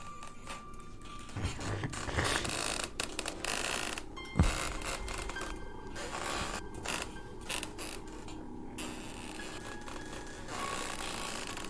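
A wooden silk-weaving loom creaks and clacks in a storehouse in a silk-making village. Faint, continuous rubbing creaks and ratchet-like knocks run throughout, with one sharper knock midway.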